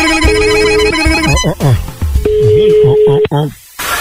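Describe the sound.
A telephone rings on a call, giving steady, loud electronic tones in two long stretches separated by a gap, while voices talk and exclaim around and over them.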